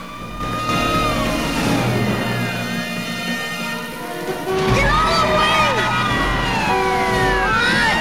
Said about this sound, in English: The ambulance comes speeding around a corner, catching Death's attention.